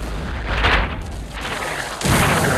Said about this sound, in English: The fuse is lit and the shot is fired. It explodes in a fireball against the fort's timber walls.